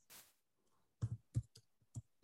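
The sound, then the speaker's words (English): Typing on a computer keyboard into a search bar: a few sharp, quiet key clicks in an irregular rhythm, following a brief soft rustle at the start. “If you just type in to the old Google search bar,”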